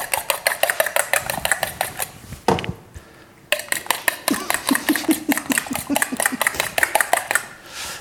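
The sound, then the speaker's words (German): A whole egg being whisked for brushing over a strudel, heard as fast, steady clinking taps of a whisk against a bowl in two runs separated by a brief pause. “ich verquirle hier noch schnell ein ganzes Ei.”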